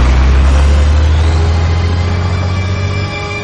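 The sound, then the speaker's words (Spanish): A heavy truck engine roars loud and steady as the vehicle starts to drive off on an airport apron, a deep low drone that eases slightly near the end. “Corre hacia el vehículo que ya se pone en marcha.”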